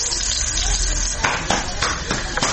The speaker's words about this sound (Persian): شمیلا جاوید مصاحبه ای را با یک تن از زنانی که مصروف پختن بولونی در باغ شهرآرا است انجام داده است